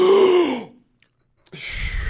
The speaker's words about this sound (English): He'll just breathe in. Let's try it again.